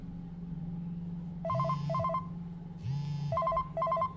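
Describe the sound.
A telephone ringing in two separate bursts of warbling electronic tones, each followed by a short gap, over a low steady hum.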